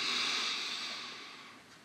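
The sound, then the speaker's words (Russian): A deep breath is drawn in during a breathing exercise, heard as a soft, airy hiss that starts at once and fades gradually over about two seconds, with no talking. “Еще раз. Глубокий вдох.”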